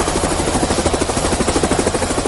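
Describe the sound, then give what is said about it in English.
Helicopter ferrying people out of flood-prone areas around Nsanje: a loud, steady rapid rotor chop with a constant engine drone, heard alone. “As you can hear in the background, that is the sound of a helicopter, which is ferrying people from the flood-prone areas, and one of them is Bangula here in Nsanje.”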